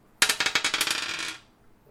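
Dice clatter across a table during a tabletop role-playing game, a quick run of many bright rattling impacts that tumble and fade out over just over a second.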